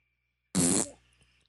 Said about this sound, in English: Who farted in the pool?